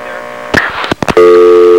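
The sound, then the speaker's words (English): A telephone dial tone sounds while a call is being dialed in: a few sharp clicks and short bursts, then a loud, steady, unbroken tone that holds to the end. “And we're dialing in here.”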